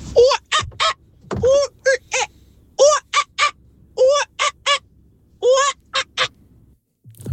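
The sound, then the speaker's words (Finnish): A voice imitates a whooper swan's call: a series of loud, nasal, trumpeting honks with a clear harmonic tone, delivered in short groups with brief gaps and no talk. “On se laulu joutsen ihan hyvästä syystä se kansallislintu, kun se noin kaunilta kuulostaa.”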